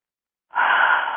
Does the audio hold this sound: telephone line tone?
no